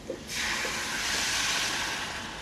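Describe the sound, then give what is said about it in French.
Sizzling hiss as a hot pan of oil and aromatics is deglazed with savagnin wine, starting abruptly after a brief quiet moment and then holding as a steady, bright, fairly loud rush. “on va déglacer au vin de savagnin”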